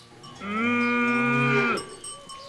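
A mother cow with her young calf gives one long, steady moo, a rich tonal call lasting over a second and rising from a quiet background, then settling back to faint low sounds.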